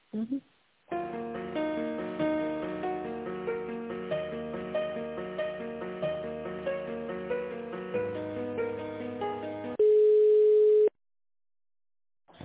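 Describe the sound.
Telephone line tones while a call is being connected: a bright electronic melody of repeated short notes plays for several seconds, then gives way to a single steady sustained tone.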